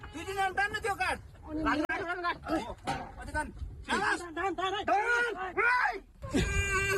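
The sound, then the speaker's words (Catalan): A six-year-old girl cries under earthquake rubble in Timur, northern Nepal, after 60 hours trapped, as a rescue team hears her. Repeated wavering, high wailing sobs come in bursts over a low rumble. “És el moment en què un equip de rescat ha sentit el plor d'una nena de 6 anys que ha estat 60 hores sota la runa a Timur, al nord del Nepal.”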